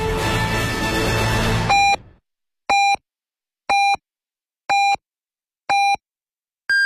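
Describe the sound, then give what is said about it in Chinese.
Hourly time-signal beeps on a Beijing news radio station: music cuts off, then five evenly spaced, loud, pitched beeps about one second apart are followed by a higher-pitched sixth beep at the end. “现在是北京时间15点整。”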